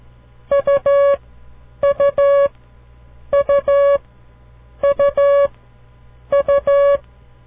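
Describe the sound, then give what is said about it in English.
Morse code for the letter U, repeated five times: each group is two short beeps followed by one long beep, all at a steady mid pitch, with even gaps between groups and no voices. “Listen very carefully. Each time you hear this sound, try to visualize a picture of the letter U in your mind. Here it is, the letter U.”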